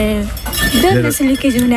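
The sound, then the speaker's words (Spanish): Plates and cutlery clink as dishes are washed by hand at a sink without a dishwasher, the clatter coming in scattered bursts under people talking. “A ver, aquí están limpiando los platos. Sí, buenos días. Limpiáis a mano, no hay lavaplatos aquí, ¿eh?”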